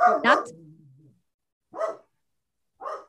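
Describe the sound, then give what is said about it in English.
A dog barks a few times: the first pair of barks trails into a low whine, and two single barks follow after pauses. “I have a dog here, and I thought he was going to be quiet this whole time because he was doing so good. Great until just now”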